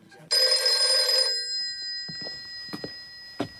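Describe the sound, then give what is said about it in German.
A telephone rings in the night: one long, bright, metallic electric ring lasting about a second, followed by a few faint knocks and clicks, with no talk. “Es war 2 Uhr nachts und wieder ging das Telefon.”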